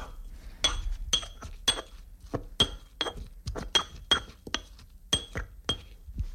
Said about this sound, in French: Donc là j'ai rajouté à mon basilic un petit peu de gros sel. Et puis c'est parti, on y va au mortier. On écrase jusqu'à obtenir une bouillie verdâtre, épaisse finalement.